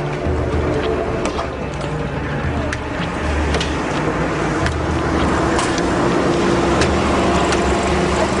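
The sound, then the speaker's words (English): Rush hour road traffic with Israeli commuters caught in it gives a continuous, loud engine rumble and roadway roar, with occasional sharp clicks over the steady drone. “The Israelis get caught in the rush hour traffic.”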